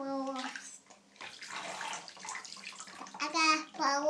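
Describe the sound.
Water splashes and sloshes during a wash, a rough burst of noise lasting about two seconds, with a child's voice babbling before and after it.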